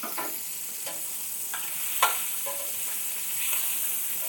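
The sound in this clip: Sausage sears in a pan after being broken into pieces, a steady bright sizzle running throughout with a few soft scraping stirs and one sharper clack near the middle.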